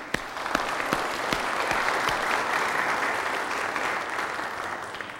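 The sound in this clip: An audience applauding to welcome a new member during a church service. A few sharp early claps swell into steady, sustained clapping from many hands, moderately loud and continuing for about five seconds.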